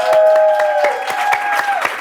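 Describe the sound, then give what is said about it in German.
Loud applause with the claps falling into a steady rhythm of sharp, distinct hits, roughly four per second, while a sustained held tone runs underneath and fades near the end. “Applaus für Günther, bitte.”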